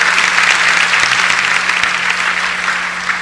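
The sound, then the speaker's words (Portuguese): Applause from a church audience cheering a woman's recovery: dense, steady clapping from many hands, loud and even throughout, easing off slightly toward the end. A faint low hum runs underneath. “Vamos aplaudir a Gláucia, a recuperação dela.”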